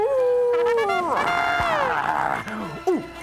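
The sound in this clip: A cartoon werewolf howling at the moon, voiced by a performer: a long, loud, wavering howl that slides down and then swells, ending with a couple of short, sharp yelping cries.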